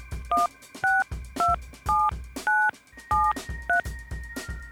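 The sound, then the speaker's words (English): A telephone number being dialed: seven touch-tone beeps in a steady, evenly spaced sequence, each a short dual-tone blip standing out above a low background. “You have to dial right now. The number. Fix it. Dial the number.”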